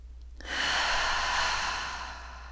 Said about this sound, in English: repeat this to yourself while you breathe deeply in and out.